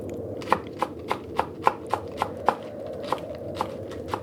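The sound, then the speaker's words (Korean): A knife chops green onion and radish on a cutting board as a grandmother prepares breakfast outside the room at seven on a dark winter morning. Many fairly faint, evenly paced knocks sit over a low background hum. “방 밖에서 할머니가 아침을 준비하는 소리가 들려왔다.”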